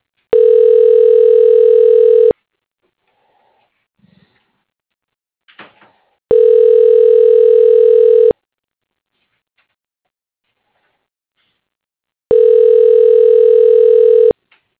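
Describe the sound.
Three long, even telephone tones play while a call is transferred. Each lasts about two seconds, with quiet gaps of roughly four seconds between them, and faint clicks sit between the first two tones.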